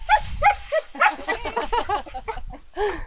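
Young puppies whimpering and yapping during feeding time, a rapid run of many high, thin yelps and whines that follow one another closely and stay fairly loud throughout.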